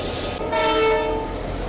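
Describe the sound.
A train horn sounds on a railway line in Republika Srpska: one steady, sustained blast of stable pitch rising over continuous rumbling train noise, then fading back into the rolling sound of the train.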